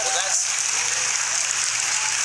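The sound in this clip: Audience applause, a dense, continuous clapping that stays at a steady, even level from start to finish.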